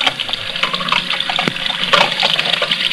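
Tap water runs into a sink while dishes are washed up, a steady rushing splash that keeps going without a break.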